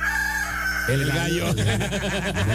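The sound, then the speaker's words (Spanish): A rooster crows in one long, loud, harmonic-rich call that gives way to choppier, rapidly repeating clucking sounds. “El gallo.”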